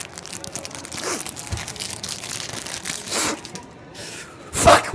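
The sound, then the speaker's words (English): A crinkly adhesive-sealed pack is ripped open: several bursts of crackling, tearing plastic, with a louder crinkle near the end. “I want that sweet crinkle crack. Can't beat the ripping. You know, the smell of adhesive. Give me a pack, man.”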